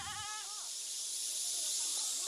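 A stone goat on karst rock mountains gives a brief, wavering bleat right at the start, followed by faint, steady hiss.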